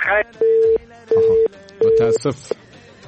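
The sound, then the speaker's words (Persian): A telephone disconnect tone sounds as a caller's line drops. It gives three even, steady low-pitched beeps with short gaps between them, and speech is heard around them. “متاسف هستیم که تماس سبقت لاجون قطع شد.”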